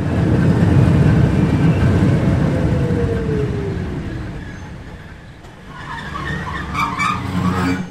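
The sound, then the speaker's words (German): A narrow-gauge railway train ride in Switzerland: loud continuous rumble of wheels on track, with a drawn-out metallic squeal falling in pitch, then the noise eases briefly before swelling again with rattling. “Das war eine Fahrt mit dem Waldenburger, der schmalsten Schmalspurbahn der Schweiz.”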